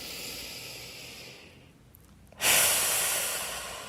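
A deep breath drawn in through the nose: a softer airy breath fades to near silence, then a loud, sustained nasal hiss of inhalation swells and holds to the end.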